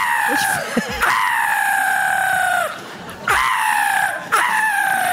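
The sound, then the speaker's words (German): A human voice imitates the call of a black-headed gull with a few loud, harsh, screeching cries that each slide slightly downward in pitch. “Wir haben Möwenarten vorbereitet. Lachmöwe klingt da so ganz anders.”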